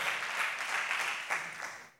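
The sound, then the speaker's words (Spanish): Faint applause from a church audience during a Spanish-language service: a soft, steady patter of clapping that fades away over about two seconds. “¡Dele un aplauso a Jesús!”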